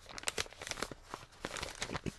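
Paper envelope torn open by hand, giving a run of many quick, crisp crinkling and tearing rustles in short uneven bursts, fairly quiet and without talk.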